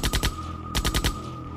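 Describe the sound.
An automatic rifle fires two short bursts of rapid shots, separated by a brief gap, over a steady ringing tone.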